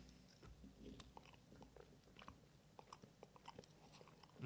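Someone bites into and chews a fishy-smelling food: faint, crisp bites and soft chewing make many small clicks and crunches at an uneven rhythm, with no talking.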